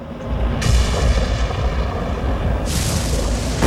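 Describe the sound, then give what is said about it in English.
Deep rolling thunder from a storm over the sea, a continuous low rumble broken by a couple of sharper, noisier bursts, loud throughout. “A prop-driven aircraft flies low over the sea in a storm. Below, a scattering of rocks and small islands. Above, a turbulent black sky illuminated by flashes of lightning.”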